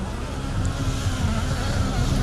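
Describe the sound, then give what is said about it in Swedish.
A rally car at the World Championship roars with a steady, broad engine noise as it goes off the road, the rumble holding fairly level without any distinct crash standing out. “Kampen om VM-titeln! Oj nej, han kör av! Han kör av!”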